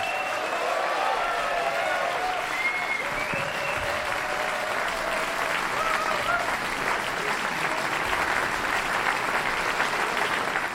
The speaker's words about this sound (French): Le public en délire de la salle Paderewski au casino de Montmenon à Lausanne.